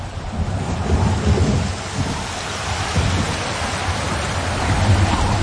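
Heavy rain pours down on an autumn day in gusty squalls from the south, with thunder rumbling low beneath a steady, loud, hissing rush.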